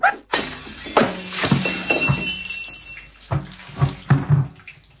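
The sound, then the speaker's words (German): A pot of water is thrown down onto the floor with a clattering crash and splash, then a few more knocks, clinks and splashes as it settles. No voices are heard. “Da ist noch ein Topf voll Wasser. Wirf den auch noch runter, dann kannst du den Boden auch gleich aufwischen.”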